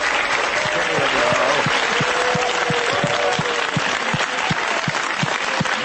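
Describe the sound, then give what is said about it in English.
Audience applause fills the whole stretch, a dense, loud wash of clapping with a regular low thudding pulse running steadily beneath it. “It's a bit self-centered, isn't it? You clap a little harder for yourself than for the show host.”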